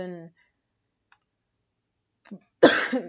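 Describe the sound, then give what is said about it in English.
A person with a sore throat gives a harsh, noisy cough after a brief snatch of speech, a faint click and a quiet pause. “So really with me this week, I've had a problem with my throat and like coughing. So I've been coughing a lot”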